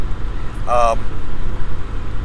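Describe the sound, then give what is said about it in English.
A steady, low rumble of engine and road noise fills the inside of an old, noisy car being driven. The drone stays rough and continuous from start to finish. “I apologize for the noise here. Today I'm driving the old hoopty, and it's noisy.”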